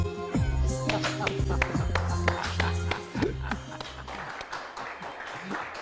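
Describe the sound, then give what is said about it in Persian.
An audience claps in honour of a performer, over music with rhythmic percussive taps. The clapping grows denser and noisier in the second half, and voices are heard in the mix. “یه بار دیگه به افتخارش دست بزنید، خیلی هنرمند”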